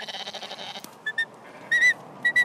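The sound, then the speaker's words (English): Sheep bleating in a pen as it is opened, the sheep marked with a red spot: a few short bleats, then a longer, louder bleat and two more brief calls, after a buzzy stretch of animal noise. “Clyde is running alongside the sheep and now the sheep are actually coming right towards us”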